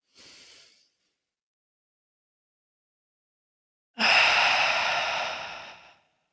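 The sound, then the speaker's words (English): A deep human breath: a short audible inhale, a silent pause, then a longer, sighing exhale that fades out slowly. “So let's just take a deep breath.”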